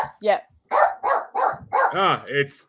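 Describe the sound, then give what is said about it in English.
A dog barks in a run of short, loud, rough yaps, several in close succession with brief gaps, some with a whiny, tonal edge toward the end. “it's so nice to have somebody else's dog barking on a podcast.”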